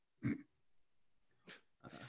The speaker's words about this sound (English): Sorry, you probably heard me snort.